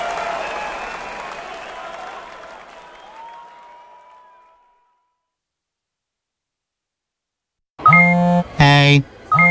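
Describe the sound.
Fading applause dies into silence, then text message notification beeps break in: a short series of bright, electronic tones with a clipped on-off pattern, loud and alone.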